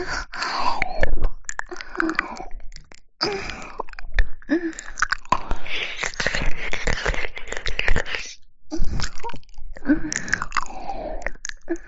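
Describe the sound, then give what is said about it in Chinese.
Someone eats something sweet, with crunchy bites and wet, noisy chewing repeating many times in an irregular rhythm. Short pauses and breathy sounds fall between the bites. “味道好甜哦，吃。”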